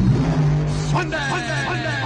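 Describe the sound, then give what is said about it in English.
A rear-engine dragster's engine revs in a drag racing advertisement: a short, loud, harmonic engine roar lasting about two seconds. “Watch the best rear engine field dragsters in the country try to push their brute machines into the magic 5-second elapsed time barrier.”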